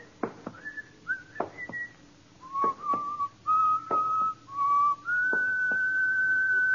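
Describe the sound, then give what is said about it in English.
A man whistles a song, a clear melodic tune of held notes stepping between higher and lower pitches, loud and alone without talk, with a few short sharp sounds early on. “What's the name of the song that guy is whistling?”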